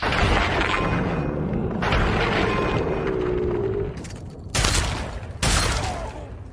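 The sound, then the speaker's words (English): Assault rifle gunfire in a video game: a dense, sustained barrage of crackling shots and booms, with two sharper, louder bursts near the end. “Oh, so he had probably an assault rifle. I don't think it was a minigun. Yeah, it's an assault rifle.”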